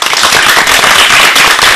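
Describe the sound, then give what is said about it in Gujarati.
Audience clapping, a loud, dense and continuous patter of many hands with no pauses and no voices. “આ તાળીઓના ગડગડાટને વધારવા માટે તૈયાર છો ને?”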